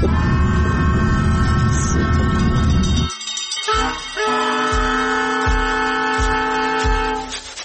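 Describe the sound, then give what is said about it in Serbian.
A train arrives at the station in Mostar with a steady droning hum of layered tones that briefly drops away. The hum then resumes under a few slow, regular thumps from the wheels. “Stigla sam, izlazim iz voza u Mostaru”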